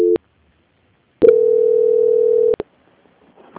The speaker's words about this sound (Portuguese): eu vou transferir o contato para o controle de qualidade que dará continuidade à sua contratação. Momento, por gentileza. Ok. Transferência.